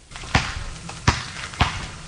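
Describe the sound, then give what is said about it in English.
A basketball bounces during a layup practice at Bennington College in Vermont, making three dull, deep thuds, each with a short sharp attack, over a faint steady background noise. “Okay, one more layup for the road. Come on, make that basket and let's hit the road.”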